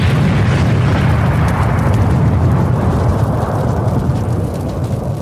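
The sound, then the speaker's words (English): A building explodes in a sustained, loud, deep rumbling roar that covers the whole stretch of about five seconds at a fairly even level, easing slightly toward the end, with no voices. “The IRS building explodes.”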